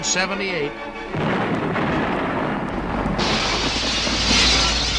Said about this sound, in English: What happened? Oh, the mill has exploded! Oh, the mill! What? The mill has exploded!